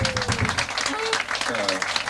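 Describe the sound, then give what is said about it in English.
An audience applauds a special guest of the evening at a live music show. The clapping is dense and steady, with a voice speaking over it throughout. “we'd like to have a special applause for our guest for the evening, Phil Mason”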